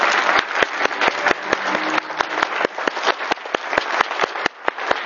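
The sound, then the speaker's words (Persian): An audience applauds in honour of all mothers. Crisp, sharp hand claps ring out steadily and densely over a broad wash of clapping for the whole stretch. “خب موافقی به افتخار همه مادر رو یه دست بزنیم؟”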